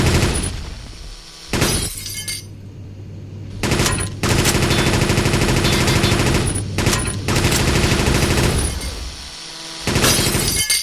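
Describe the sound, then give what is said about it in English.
Rapid bursts of speed machine gun fire in a shooting video game, harsh and loud. Long sustained volleys are broken by short gaps, with crackling, shattering impacts layered through the fire. “Machine gun. Speed machine gun.”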